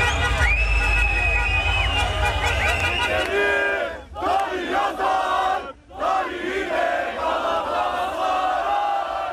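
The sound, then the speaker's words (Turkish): Galatasaray football fans chant loudly in city squares, celebrating the club's 26th championship as flares are lit. The massed voices roar almost continuously, with two brief dips before the chant swells again. “Yurdun dört bir yanındaki Sarı Kırmızılılar meydanlarda toplandı. Marşlar söylendi, meşaleler yakıldı.”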